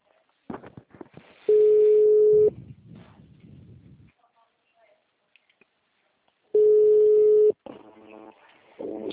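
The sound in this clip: Ringback tone of an outgoing phone call, two long steady mid-pitched tones of about a second each, separated by several seconds, with voices talking around them.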